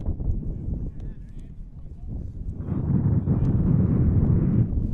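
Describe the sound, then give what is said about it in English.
Wind blows across a baseball field during a varsity game, a low buffeting rumble against the microphone that swells and grows stronger through the second half. “The wind really picking up. The interesting part is it's coming right towards us.”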